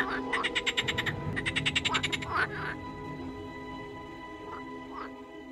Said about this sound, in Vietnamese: chẳng hiểu ếch ở đâu mà lại kêu lên râm ran đến kỳ lạ.